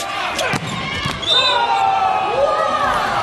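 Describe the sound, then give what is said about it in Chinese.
A volleyball serve is struck during a match involving Chinese Taipei: a couple of sharp impact thuds come early, and then a commentator's voice takes over. “这发球发出来”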